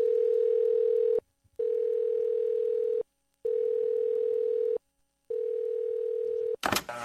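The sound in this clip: A telephone line tone sounding while a call is placed: four long, steady, mid-pitched tones separated by short silences, then a brief noisy burst at the end.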